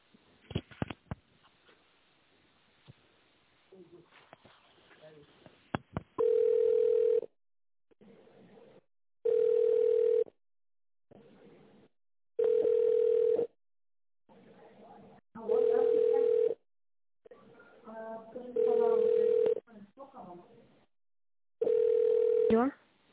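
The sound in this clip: Ringback tones on a telephone line while a call is being transferred: six steady mid-pitched beeps, each about a second long and spaced roughly three seconds apart. Voices and faint line noise come before them.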